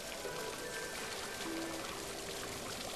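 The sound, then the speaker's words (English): Falling water pours down as a continuous curtain, a loud, steady rushing hiss that holds an even level without breaks or separate drops. “you walk naked down the steps under a curtain of falling water.”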